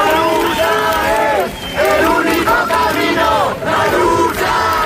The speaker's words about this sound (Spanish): Es el sonido anoche en Sol cuando la gente se enteraba de la muerte de Mari Carmen.